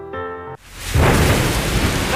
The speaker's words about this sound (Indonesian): Hujan gini mulu sih.